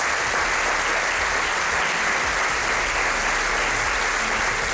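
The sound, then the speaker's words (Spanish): Audience applause for a production team member: a continuous, even wash of many hands clapping, moderately loud and unbroken for the whole stretch, with no voices on top. “Un fuerte aplauso para ella.”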